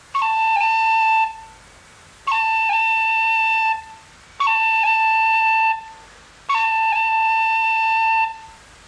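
Short A roll with a cut and a tip combined, played on a fingered, blown instrument with the top two holes covered. Four clear sustained notes, each opening with a brief high flick and a quick dip just after.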